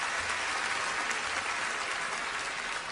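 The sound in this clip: An audience applauds during a comedy set in a faint, steady wash of clapping. The level stays even for the whole few seconds, with no distinct voices standing out.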